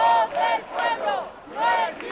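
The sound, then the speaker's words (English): A crowd argues heatedly at an anti-corruption rally in Madrid: several raised voices shout over one another in loud, overlapping bursts, with short dips between them. “At this anti-corruption rally, someone makes a wisecrack about the royal family, and the crowd launches into a fiery debate over how much the princess, Infanta Cristina, was involved in her husband's dealings.”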